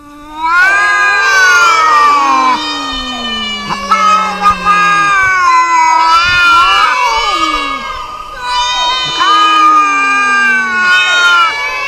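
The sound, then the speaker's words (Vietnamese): Many cats yowl and screech together in a loud, continuous din of overlapping wails. The high caterwauling cries rise and fall without a break. “Cháu có thể tưởng tượng được hơn trăm con mèo cùng rít gào là cảnh tượng như thế nào không?”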